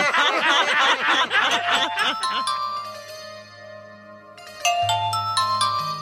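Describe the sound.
A telephone ringing with bright, tonal chiming notes, several ringing pulses near the end, preceded by a stretch of chuckling voices.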